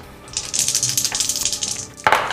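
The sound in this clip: Dice rolling during a tabletop role-playing game: a sustained rattling clatter lasting more than a second, then a sharp knock as they come to rest, with no voices.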